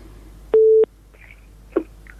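A telephone tone after a call-in listener's call is cut off: one short, steady, mid-pitched beep, followed by a few faint clicks on an otherwise quiet line.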